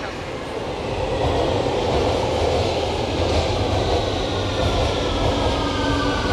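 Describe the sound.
A train arriving at a platform: a loud, continuous rumble and hiss of rolling wheels builds after the first second and then holds steady, with thin high squeals running faintly above it.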